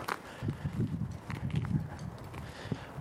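Footsteps of a person out on a walk, a steady run of soft, low thuds over continuous background noise, with no talking.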